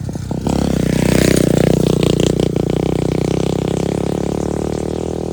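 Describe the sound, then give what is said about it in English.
A small motocross bike engine revs as the bike rides past, a loud, continuous buzzing roar with a rough whine that swells early on and keeps going for several seconds. “Sorry, little motocross bike from the future just rode through.”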